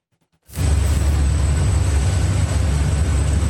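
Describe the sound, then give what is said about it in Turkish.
A Blue Origin rocket engine explodes during an engine test, bursting in abruptly after near silence and then holding as a loud, steady, deep roar that barely wavers. “Jeff Bezos'a ait uzay taşımacılığı şirketi Blue Origin'a ait bir motor testi gerçekleşti. Ama o test sırasında büyük bir patlama yaşandı.”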